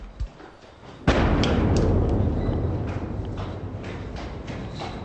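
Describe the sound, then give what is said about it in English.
A car bomb explosion in downtown Baghdad, the third of three blasts minutes apart, caught over a mile and a half away: a sudden heavy boom followed by a long, rolling low rumble that fades slowly. “Three huge car bombs rocked downtown Baghdad today. They occurred just minutes apart, and the sound of the third blast was recorded at NPR's Baghdad office more than a mile and a half away.”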